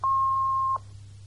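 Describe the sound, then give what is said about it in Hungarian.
A single steady beep from an answering machine brought from abroad: one clear mid-pitched tone held for under a second, then cutting off to leave a faint low hum. “Nem tudtam, hogy már neked is ilyen telefongéped van. Persze, nyilván külföldről hoztad.”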